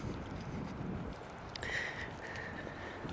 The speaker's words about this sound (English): I don't know if you can hear the wind. It's blowing pretty hard.